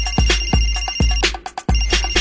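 A phone ringtone plays for a call from the Zenit football club. Its bright electronic melody has repeated plucky notes in a quick, steady rhythm, loud and alone with no voices.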